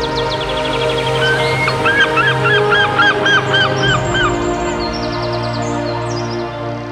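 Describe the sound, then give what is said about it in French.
Birds call in the sky with a rapid run of loud, high, honking cries that repeat in quick bursts, set against sustained low droning tones. “Dieu créa toutes sortes de poissons pour peupler les mers et des oiseaux pour chanter dans le ciel. Quelle symphonie!”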